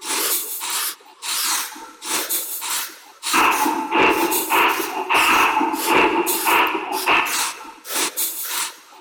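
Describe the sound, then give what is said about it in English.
Forceful Qigong breathing demonstrated in loud, hissing, rasping bursts of breath, repeated many times in an uneven rhythm and growing denser midway through. “if you had Master Wang's techniques, using Qigong breathing techniques, like,”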